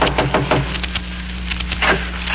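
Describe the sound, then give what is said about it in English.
Knocking on a door, a quick run of many sharp raps, close together at first and then more spaced, over a steady low hum. “Here, I'll knock again.”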